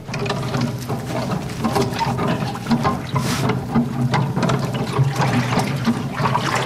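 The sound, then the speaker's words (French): Water stirred by a large wooden paddle plunged into it, as in dynamizing water for spiritual agriculture: continuous sloshing and swirling with irregular splashy surges at fairly steady loudness, no talk. “Donc c'est une grande pâle en bois en fait, plongée dans l'eau.”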